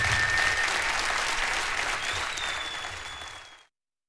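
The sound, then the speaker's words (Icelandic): Loud, sustained audience applause at a live concert after an old folk-style song, with a thin high sustained tone running through part of it; the clapping gradually weakens and then cuts off abruptly. “klappiði fyrir honum bara.”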